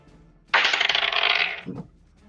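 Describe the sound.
Dice rattle as they are rolled for initiative during a tabletop role-playing game, a single bright clattering roll lasting about a second that ends in a soft, low thud.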